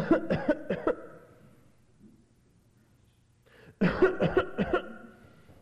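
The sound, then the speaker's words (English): A voice imitates a child's constant hacking cough with two loud bursts of quick, harsh, rhythmic coughs, each made of several short hacks, separated by a quiet pause of nearly three seconds, with no talking. “you know what that's like when little Susie or Billy, they've got a cough and they're quiet and they go,”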